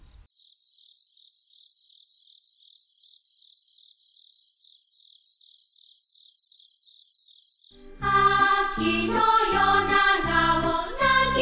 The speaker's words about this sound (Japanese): 最後はクマコオロギです。